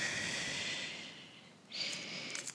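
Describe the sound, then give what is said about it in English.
A soft exhale during a yoga flow. A faint, airy breath swells into a breathier whoosh about two-thirds of the way through, followed by a few faint puffs. “Breathe in. Good. And breathe out.”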